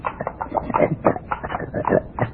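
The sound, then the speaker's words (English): A pet pig grunts in a quick run of many short, choppy snorts and squeals, moderately loud and alone, with a thin, band-limited tone. “What's that? Oh, that? Just my pet pig”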